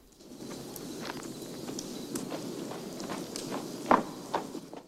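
Faint footsteps stomp back toward a campfire as a series of soft, irregular thuds, with one louder step near the end. No voices are heard.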